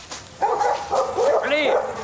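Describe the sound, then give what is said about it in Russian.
Hunting dogs bark, yip and whine during a chase, with several overlapping yelping calls that stay fairly loud and continuous across the short stretch. “За ними гонятся охотники с собаками.”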